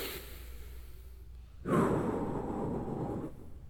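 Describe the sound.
A deep breath taken before a prayer at a church service: one broad, airy rush that swells suddenly and holds for over a second before fading, with no talk over it.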